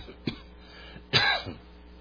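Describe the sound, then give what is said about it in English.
Coughing and throat clearing from a person whose lungs were damaged by propane exposure: a short rasp, then a louder, rougher cough burst and a faint trailing one, with no talk. “Excuse my coughing.”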